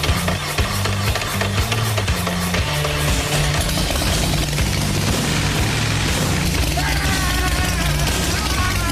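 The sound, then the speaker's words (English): A newly built motorcycle engine fires up and runs, giving a loud, continuous low-pitched drone with strong harmonic bands. Its tone shifts several times as it keeps running throughout. “The bike fired up immediately, just the way a bike should when you build it.”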